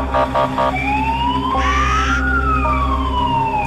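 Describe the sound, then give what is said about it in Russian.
An ambulance siren sounds as the ambulance drives away: three short pulsed bursts, then a loud rising wail over a steady low engine rumble. “Люди смотрят вслед уезжающей машине скорой помощи.”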